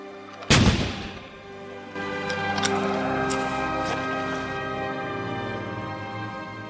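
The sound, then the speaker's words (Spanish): A single sharp, loud gunshot fired as a coup de grâce at an execution. The abrupt bang is followed by a steady, sustained ringing drone that holds at an even level until the end. “Le voy a dar el tiro de gracia.”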